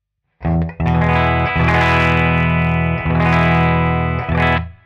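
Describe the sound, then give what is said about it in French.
Electric guitar played straight into a BD Custom amplifier on its clean channel: a few loud strummed chords ring out with long sustain, each new strum briefly cutting the previous one, with no voices. “Donc ça, c'est le son de la guitare direct dans l'ampli BD Custom sur le canal clean.”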